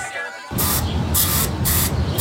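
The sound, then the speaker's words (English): An aerosol spray can hisses as it is sprayed for termites in a shed, a loud, continuous, breathy hiss that starts abruptly and pulses in a few quick surges, with no talk over it. “Well, I was cleaning the shed and I found termites, so I got the spray.”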